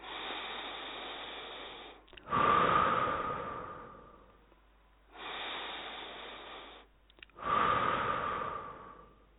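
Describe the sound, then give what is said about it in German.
Slow, deep breaths during a guided relaxation exercise: two full cycles, each a softer airy inhale followed by a louder, rushing exhale, with no talking. “Atme mehrfach tief ein und aus.”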